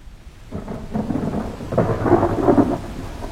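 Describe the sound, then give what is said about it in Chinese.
Thunder rolls through a heavy rainstorm, a low rumbling roar that swells after half a second and stays strong, with the hiss of pouring rain beneath it and no voices. “雷雨轰鸣”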